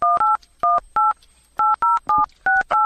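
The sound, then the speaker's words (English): Touch-tone telephone keypad dialing: nine short, loud, dual-pitched beeps in quick, irregular groups, heard alone with no talk. “We are dialing Josh. Watch him not pick up.”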